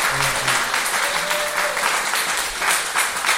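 Steady applause from an audience at a live music event, a dense and continuous clapping wash that holds at an even loudness throughout with no pause.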